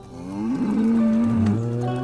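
A cow moos in a corral: one long, loud, low moo that swells at the start and then holds a steady pitch for most of its length, with no voices.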